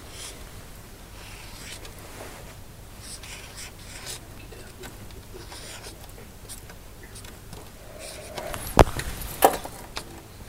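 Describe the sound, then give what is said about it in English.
A pen scratches and glides on paper while writing the Arabic word al-kitabu by hand. The strokes are soft and continuous, with a few sharper taps near the end. “if I show you, to write al-kitabu, yeah, you won't write like this.”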